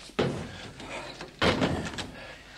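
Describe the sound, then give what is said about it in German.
A window being opened makes two heavy, dull thumps about a second and a quarter apart, each trailing off in a short rattle. They are moderately loud, with no talk. “Sie hat das Fenster geöffnet.”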